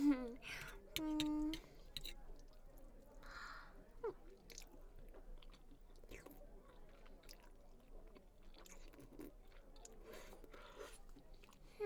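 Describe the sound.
Wet chewing of carbonara pasta, many soft squishy mouth sounds and small smacks in an uneven rhythm, quiet and close, with a brief voice near the start.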